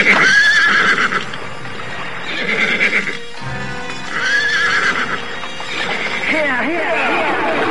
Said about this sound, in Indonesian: Segera saja para prajurit itu memacu kuda mereka.